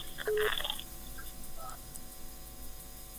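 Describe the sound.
Telephone dialing tones on a call to a radio listener: a brief burst of a few electronic key tones early on, then a faint steady line hiss.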